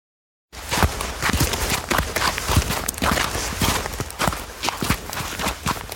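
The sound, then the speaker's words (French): Footsteps of people walking carefully in snowshoes along a snowy ridge in a mountain park: continuous crunching steps begin after a brief silence and carry on at a steady, fairly loud level. “Enzo et sa maman Marion marchent le plus discrètement possible, enfin aussi délicatement qu'on peut avancer avec des raquettes aux pieds le long de la crête enneigée dans le parc de Mercantour”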